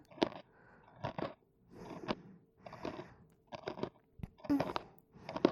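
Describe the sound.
Chewing on crunchy home-style cooking, with rhythmic crisp bites and munches repeating about once a second, each a short crackly burst separated by quieter pauses.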